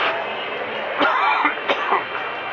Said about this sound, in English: Sorry, I got some popcorn in my throat